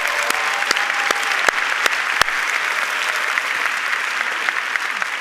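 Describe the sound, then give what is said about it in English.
Audience applause at a church service, a steady, dense wash of many hands clapping, with a few sharper individual claps standing out, lasting throughout. “Let's give all those people in the military a big hand.”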